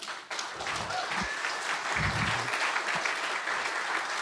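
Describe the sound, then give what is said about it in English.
Applause from a conference audience welcoming a speaker for opening remarks: dense, steady clapping that keeps up at an even, fairly loud level from start to end. “So very excited to have him here today, and big hand for Tim.”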